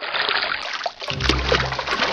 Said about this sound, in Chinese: 搓过盐的牛肺用清水冲洗后，还要在热水中焯洗。然后再在清水中像洗衣服那样使劲揉搓，将血管中的血水全部挤出来。